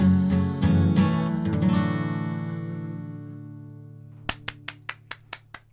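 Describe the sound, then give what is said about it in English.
Seven sharp hand claps from one person come in as a final musical chord rings out and slowly decays. The claps are crisp and evenly spaced and stand out clearly over the fading note. “Did I start clapping too soon?”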